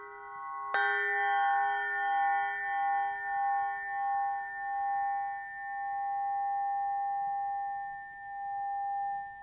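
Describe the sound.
A crystal quartz pyramid is struck once, giving a sharp attack and then bright, pure ringing tones. The tones sustain for several seconds with a slow wavering pulse in loudness, gradually fading with no voices.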